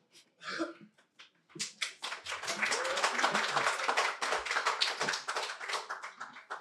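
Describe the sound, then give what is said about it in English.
Applause from a concert audience, starting with a few scattered claps that quickly swell into loud, continuous clapping and hold steady to the end. “Give yourselves a round of applause. Wind section.”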